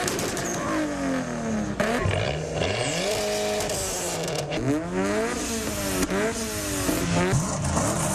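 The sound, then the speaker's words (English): A hoon's car engine revs hard and accelerates on suburban streets, its loud, raspy drone surging up and down in pitch over and over in rapid, aggressive bursts. “The sound of hoons sounds a bit like this.”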